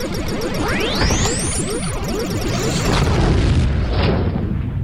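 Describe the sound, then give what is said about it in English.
A spaceship explodes in a video game as dense, loud booms roll over one another, with swooshing sweeps and crackling bursts layered on top. The blasts pile up without a break for the whole stretch. “Ship destroyed. Game over.”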